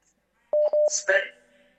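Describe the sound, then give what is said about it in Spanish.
Telephone keypad tones as a call is dialed: three short, clear beeps, then a longer steady tone that carries on beneath a brief burst of noise. “Ahora es cuando llamada telefónica.”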